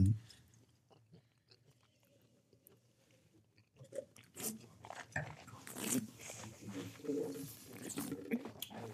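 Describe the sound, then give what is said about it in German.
Someone chews and crunches asparagus served with asparagus butter. Soft bites and moist munching grow busier partway through, mixed with people talking. “Und ich esse schon mal den Spargel.”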